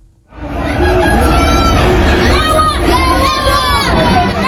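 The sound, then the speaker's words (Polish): Loud, dense shouting from a crowd of Polish fans, many in white and red, greeting footballer Robert Lewandowski in Florida at a match against Inter Miami. It starts after a brief quiet moment and then stays at a steady roar of overlapping voices. “Jak słychać, na Roberta Lewandowskiego czekali jego fani. Było trochę osób w biało-czerwonych barwach, to głównie Polonia z Florydy. Witamy w Ameryce. Niektórzy przywitali go takimi okrzykami lub napisami na flagach.”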